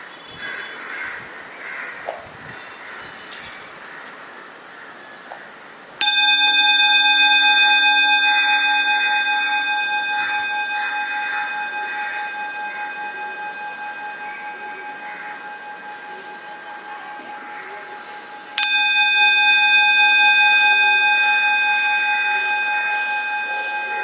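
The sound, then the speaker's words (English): Meditation bell struck twice, each strike a bright, clear chime that rings on with a long, slow decay of pure, sustained tones. A faint, quiet background precedes the first strike. “So I ring a bell 3 times. So you just pay attention to the sound of the bell.”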